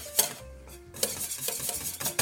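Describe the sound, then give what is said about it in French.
Whisking of a thickening caramel mixture in a pot as it boils, heard as short scraping, stirring strokes of uneven loudness. “Et là, ça fait au moins quelques minutes hein, qu'on est en train de fouetter”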